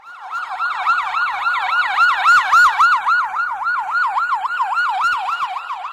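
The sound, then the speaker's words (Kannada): An ambulance siren wails loudly and continuously at a road accident scene, sweeping rapidly up and down in a fast, even warble that repeats many times, with a few brief clatters near the middle and no voices. “Hello ambulance ಅನ್ರಿ ಇಲ್ಲಿ ಆಲ್ಮಟ್ಟೆ ರೋಡಿಗೆ ಒಂದ್ accident ಆಗಿದ್ರಿ ನಾಕ್ ಹುಡುಗರದವ್ರಿ ಸ್ವಲ್ಪ ಜಲ್ದಿ ambulance ತಗೊಂಡ್ ಬರ್ರಿ”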